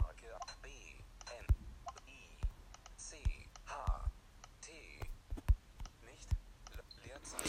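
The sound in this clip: Keyboard typing as a word is entered into a search field. A few sharp, scattered clicks come at an uneven pace, quiet overall, with a soft murmuring voice underneath.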